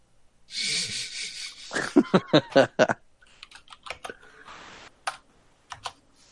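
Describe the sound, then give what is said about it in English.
Typing on a computer keyboard: a brisk run of sharp key clicks, some louder than others, then scattered lighter taps with short pauses, after a breathy rush at the start. “Are you done typing there? I'm done typing.”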